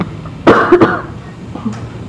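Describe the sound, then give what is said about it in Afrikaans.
A few sharp, harsh coughs from a person who has been coughing repeatedly: a cluster of loud bursts close together, then one fainter cough after a short pause, with quiet background between. “Maar ek is nou al moeg vir hoes. Dit is nou vir my vervelig. Dit is al wat ek doen.”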